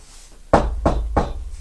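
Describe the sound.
A teacher knocks three times, each a sharp, loud rap with a deep thud, spaced evenly about a third of a second apart after a quiet moment.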